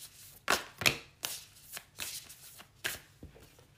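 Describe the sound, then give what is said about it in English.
Oracle cards being shuffled and handled: a string of crisp, papery riffles and soft slaps coming in irregular bursts, the first two loudest and later ones lighter, with no talking. “I just pulled some cards from the Work Your Light Oracle.”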